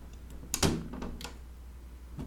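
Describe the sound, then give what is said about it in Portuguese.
An old, rusty window is forced shut with a dull thud and a short scrape, followed by a few fainter clicks and knocks over quiet background noise. “Peraí que eu fechei a janela. Pô, a janela é uma merda de fechar.”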